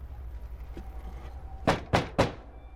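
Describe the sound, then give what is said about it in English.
Three dull knocks and rattles as someone tries the handle of a house door on a porch, coming in quick succession near the end after a quiet stretch of low hum. “He jumps onto the porch of the house and tries the door handle.”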